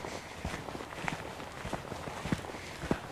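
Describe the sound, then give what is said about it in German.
Footsteps of a person walking along a small path toward the Himmelmoor moor, many soft, quiet steps in an uneven rhythm with occasional slightly sharper crunches. “So, jetzt laufe ich wieder Richtung Moor.”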